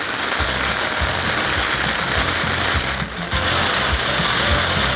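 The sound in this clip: A bingo ball drawing machine, full of balls, runs with a steady mechanical rumble and a rapid rattling, ratchet-like clatter that continues throughout, briefly dipping once midway.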